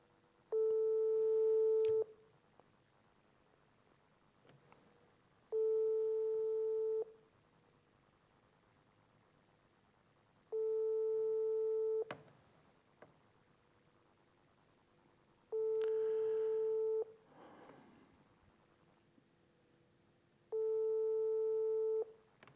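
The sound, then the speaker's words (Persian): Telephone call tone from an unanswered call: five long, steady, even-pitched tones at a regular rhythm, with quiet gaps between them and no voice picking up. “من تماس میگیرم با ایشون ببینیم که این بزرگوار پاسخ میدن یا پاسخ نمیدن.”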